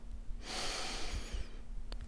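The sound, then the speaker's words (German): One deep, airy inhalation lasting about a second, taken with hands held in prayer position during a guided meditation; soft and breathy, with no talk over it. “atme dreimal tief ein”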